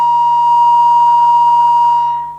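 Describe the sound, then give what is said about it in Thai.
A phone line's disconnected tone after a dropped call: one steady, loud, high-pitched electronic beep held continuously for over two seconds before tapering off. “แสดงว่าสายหลุดไม่เป็นไรนะครับ”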